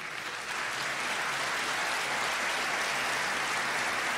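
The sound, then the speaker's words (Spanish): Dense, steady applause from an audience at a church service, a continuous wash of many hands clapping that holds evenly throughout without breaks. “Denle un aplauso al Señor.”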